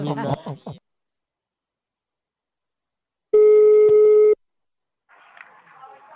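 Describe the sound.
Telephone line signal while placing a call: a single loud ring tone of about one second, sitting in silence between a brief voice at the start and faint sounds near the end.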